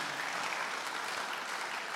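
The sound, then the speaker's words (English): Congregation clapping hands during a church worship service, a dense, steady wall of applause that holds evenly loud from start to finish with no voices rising above it. “Come on, clap our hands for Jesus.”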